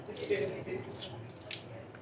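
Running water at a sink as cups are washed up in a coffee-making setting, a faint, steady splashing hiss that continues for the whole moment.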